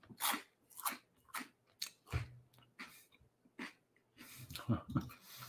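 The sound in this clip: Crunching of baked green pea snacks for ASMR: many soft, crisp bites and chewing sounds in an irregular rhythm, quiet throughout, with no talk.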